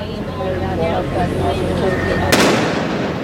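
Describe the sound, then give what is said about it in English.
A bomb inside a backpack left in a trash can in Elizabeth, New Jersey, goes off unintentionally while a bomb squad tries to disarm it. One sharp, loud blast is heard near the end, under a talking voice. “Let's show you one more time of that bomb unintentionally going off.”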